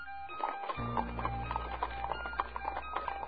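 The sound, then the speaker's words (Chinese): Horse hooves galloping outside as riders return and halt at a door: a quick, regular clopping of many hoofbeats over a low sustained drone, the beats evenly spaced and moderately loud throughout. “就在这时，外面马蹄声呼起，似乎是刚刚过去的那些人又返了回来，就在门外停了下来。”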